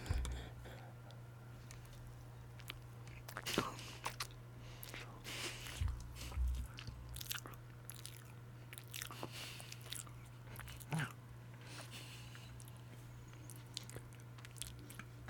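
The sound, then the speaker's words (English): Someone bites and chews cake, with many moist, squishy mouth clicks and small crunchy bites scattered irregularly over a steady low hum. “Are you just gonna eat cake on the podcast?”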